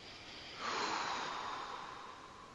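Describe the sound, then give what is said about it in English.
A deep, comfortable breath is drawn, a soft airy rush that swells after a brief quiet moment and then slowly tapers off, with no talk. “So let's take a comfortable breath.”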